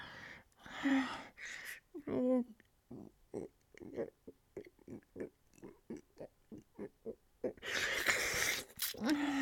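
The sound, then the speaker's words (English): A man lets out stifled groans: muffled, strained grunts and breathy gasps in many short bursts, some pig-like, separated by brief pauses, with speech at the start and end. “I heard you stifle that groan.”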